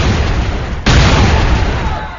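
Two hand grenades tossed underhand into an alley explode against a wall, a sudden loud blast breaking out of dense noise and leaving a heavy, rumbling roar that slowly fades.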